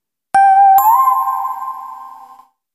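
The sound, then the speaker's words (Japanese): Bell chime signalling a page turn during a picture-card story reading, struck twice in quick succession, then a bright ringing tone that slowly fades out, alone. “ベルの音に合わせて紙芝居をめくってください。”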